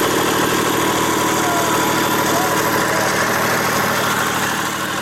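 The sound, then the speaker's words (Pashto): A small generator runs outside a row of shops in Lashkar Gah, a steady, dense engine drone with a rumbling low hum and a constant vibrating texture that holds level throughout. “که هم سولر سیستم اسانه او ارزانه دی، خو په لشکرګاه کې د هر څو دوکانونو لپاره واړه جنراتوران چلوي.”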